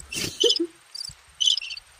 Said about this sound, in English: I almost thought they was really in here with us. I know. I'm like, wait, is there a cricket under the table?